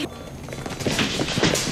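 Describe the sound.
Children's footsteps climb steep tower stairs, a quick, uneven run of soft thuds and scuffs over a constant hiss.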